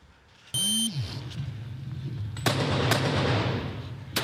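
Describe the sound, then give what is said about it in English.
Gunfire from a police shootout, captured on body camera. An electronic beep with a low tone comes first. After a stretch of steady background noise, a few sharp, loud shots ring out over a noisy wash. “This was the chaotic scene. Officers firing multiple rounds at two suspects”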